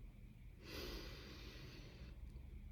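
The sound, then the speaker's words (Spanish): A slow breath in and out, heard as one soft, drawn-out airy rush lasting over a second against a faint low background. “Respira conmigo.”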